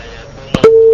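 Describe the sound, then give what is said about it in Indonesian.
A telephone tone sounds after a phone call disconnects: a brief click, then one steady, loud, mid-pitched tone held for about a third of a second before cutting off. “terputus sambungan teleponnya”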